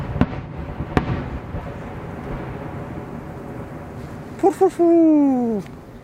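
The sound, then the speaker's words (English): Two sharp, short reports from a British gun firing at a dug-in frontline position north of Slovyansk in Ukraine, fairly faint over a low rumbling background and spaced under a second apart. “British machine. This is a British gun.”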